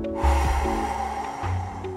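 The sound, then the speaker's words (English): Slow breathing in and out through the belly during a mindfulness exercise, a soft airy rush of breath over a faint, steady musical tone. “Inhale through the belly. Exhale normal.”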